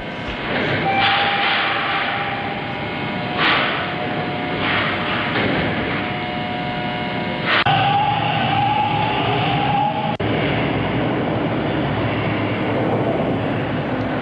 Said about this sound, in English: Just some sounds from the TTC that's recognizable to more than 2 million people who take it every day.